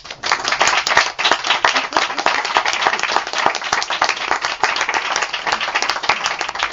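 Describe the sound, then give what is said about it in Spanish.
Applause from an audience at a book talk on politics and rock music; dense, steady clapping of many hands sustained for several seconds at an even loudness. “Así que yo creo que este es el momento en el que aplaudís.”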